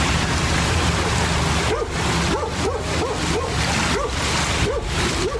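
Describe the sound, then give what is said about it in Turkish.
Heavy rain pouring on a flooding city makes a loud, steady, unbroken hiss. Several short yelps and whimpers from a dog rise over it in the second half. “Şiddetli yağış kenti esir aldı.”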